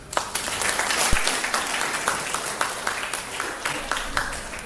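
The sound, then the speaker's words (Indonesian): Applause from a lecture audience thanking a professor for his talk: dense, steady clapping that holds at an even level throughout, with scattered sharper claps standing out. “Uh, kita beri aplaus.”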